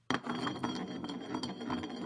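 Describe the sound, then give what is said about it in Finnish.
Glass bottle spun on a table in a game of truth or dare: a sudden start, then about two seconds of continuous rattling, rubbing whir with faint clinking pulses as it turns. “Eli pistetään pullo pyörimään.”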